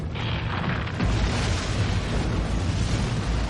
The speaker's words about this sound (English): 100 billion times more powerful than the 1980 Mount St. Helens blast, exploding in Wyoming's Yellowstone National Park, triggering a worldwide disaster?